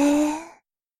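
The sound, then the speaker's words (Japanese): A single deep breath drawn in during a guided relaxation exercise: a soft, sigh-like rush of air with a slight voiced tone, lasting about half a second before cutting to silence. “わらわの声に合わせて、深呼吸。吸って、”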